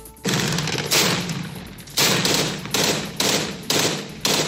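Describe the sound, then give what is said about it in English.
Gunfire as U.S.-backed Syrian Democratic Forces close in on the last Islamic State-held territory in Syria: seven heavy, booming shots at uneven intervals, each trailing off in a long, rumbling decay. “That's the sound of U.S.-backed Syrian Democratic Forces closing in on the last small piece of territory held by Islamic State militants in Syria.”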